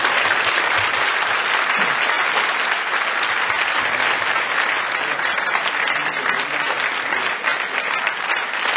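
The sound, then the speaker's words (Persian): An audience applauds with a loud, even wash of clapping that continues without a break for about nine seconds. “یک کف خیلی زیبا برای خانم بزن.”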